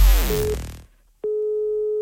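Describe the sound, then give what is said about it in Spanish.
A telephone line tone as a call is placed for a prank call: a fading wash of other sound and a short silence, then a single steady, mid-pitched tone that starts abruptly and holds flat to the end. “San Bernardino va a llamar a María del Mar para comunicarle que alguien ha comprado desde su móvil un tractor.”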